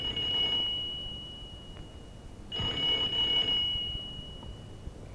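A telephone ringing on a 1970s radio call-in segment, heard as two long bursts of a bright, steady high-pitched ring separated by a pause, over a faint background hiss.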